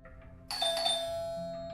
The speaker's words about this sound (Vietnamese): Tiếng chuông cửa reo lên.